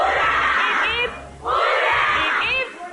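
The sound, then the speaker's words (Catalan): A studio group shouts hurrahs together at the opening of a show. Long, loud collective yells come in repeated bursts, separated by a brief gap. “vamos a empezar el programa con tres hurras para todos los compis que nos están viendo desde casa, que se los vamos a dar nosotros desde aquí, venga.”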